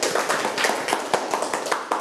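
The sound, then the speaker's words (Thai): Students clapping for themselves during a lesson with a teacher. Many sharp, uneven claps of moderate loudness follow one another quickly in an irregular pattern. “เอามือลงเก่งมากปรบมือให้ตนเอง”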